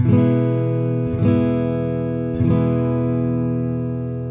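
An E chord is strummed three times on a guitar, spaced just over a second apart. The rich, ringing tones sustain between strokes, and the last one lingers and slowly decays.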